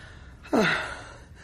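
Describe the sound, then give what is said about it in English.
A single deep breath, partly voiced like a gasp, swells suddenly and then trails off with a falling pitch. It is heard alone, without talk. “Sit down. Take a deep breath.”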